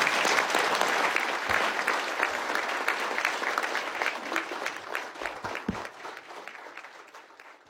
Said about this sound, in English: So welcome, congratulations, Mr. Brown. And let's give him a good round.